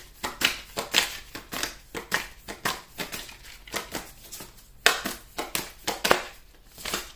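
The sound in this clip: Oracle cards being shuffled and handled: many quick, faint, crisp flicks and papery snaps in an irregular rhythm, with soft crinkling between them.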